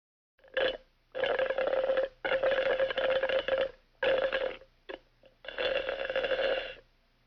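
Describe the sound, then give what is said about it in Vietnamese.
Juice slurped through a straw: several long, gurgling sucks with a steady low buzzing tone, separated by short pauses, with a few brief sips in between. “妹がジュースをストローでチューチュー飲んでいます。 Câu vừa rồi có thể hiểu là em gái tôi đang hút nước ép chụt chụt qua ống hút, giống như là đoạn âm thanh sau đây.”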